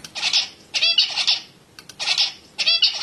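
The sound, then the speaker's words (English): An adult male zebra finch, a father bird, sings several repeated bursts of buzzy, high-pitched chirping syllables separated by brief pauses, heard alone without any talking. “So this is the song of an adult zebrafinch father.”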